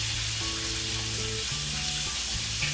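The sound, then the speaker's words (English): Turkey bacon frying in a pan gives a steady, dense sizzle with constant crackling hiss at an even volume from start to end, and no one talks. “Y'all hear that? Turkey bacon.”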